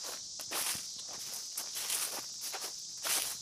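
Footsteps of someone walking, a steady run of soft, crisp steps continuing throughout, set against a constant high chirring of insects.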